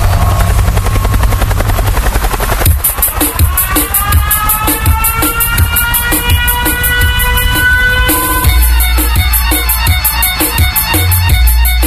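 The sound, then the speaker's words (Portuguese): A helicopter sound effect in a live sound-system DJ mix plays loud and continuous, with a fast chopping rotor pulse, a steady engine whine and a driving beat underneath. “Olha aí, ó, o helicóptero aí, ó.”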